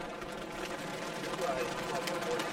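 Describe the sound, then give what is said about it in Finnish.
A drum roll at a stage ceremony announcing prize winners: a fast, continuous rattle held at an even level that swells slightly toward the end. “Vähän nyt rumpujen pärinää.”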